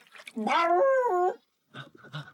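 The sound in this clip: A dog whimpering: one long, high, wavering whine, then after a short silence a couple of softer, briefer whimpers.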